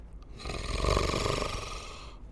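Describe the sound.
A large beast draws a raspy, growl-like inhale: one rough, snoring-like breath that swells, peaks and slowly fades, fairly faint and heard alone.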